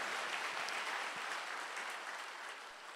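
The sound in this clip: Church audience clapping hands during a Sunday sermon, a soft, dense patter of many hands that holds steady and eases slightly toward the end.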